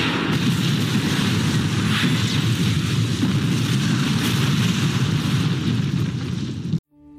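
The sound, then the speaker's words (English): An explosion blows up an entire complex in an animated action scene: a loud, continuous roaring rumble with a dense, crackling texture that holds steady for nearly seven seconds, then cuts off abruptly. “There's only one way to stop them now. Blow up the entire complex!”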